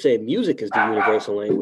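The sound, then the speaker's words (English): A dog yips and whines in warbling, high-pitched bursts while a person talks over it. “That's my dog too.”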